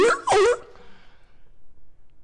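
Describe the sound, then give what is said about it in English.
Two short, loud barks of a sea lion sound effect played in a Scratch program, coming one right after the other and followed by quiet. “Notice that every second or so, the sea lion is barking. And frankly, this gets annoying quickly.”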